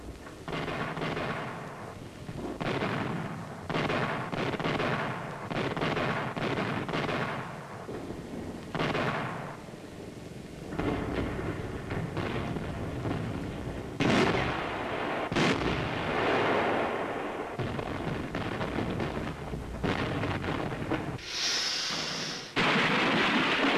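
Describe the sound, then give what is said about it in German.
Naval gunfire between German and attacking destroyers in a heavy battle near the harbour of Narvik: many deep, booming shots and blasts over a continuous loud rumble, with sharper cracks standing out now and then, and no talking. “Es kommt zu einem schweren Kampf. 3 weitere Zerstörer laufen aus dem Hafen von Narvik und greifen in das Gefecht ein.”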